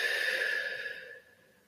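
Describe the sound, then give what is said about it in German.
One deep breath taken during a guided breathing exercise: a soft, airy, breathy sound that holds for about a second and then trails away to near silence. “Und atme mal ganz tief ein und wieder aus.”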